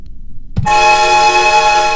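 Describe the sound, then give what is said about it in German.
Electronic honk from a typing tutor program, triggered by pressing the equals key: a short click, then a loud, buzzy, steady horn-like tone that holds to the end. “Ja, dann gibt's ein Hupen.”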